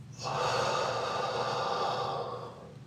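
A long, deep breath, a steady rush of air that stays loud and even for just over two seconds, then fades.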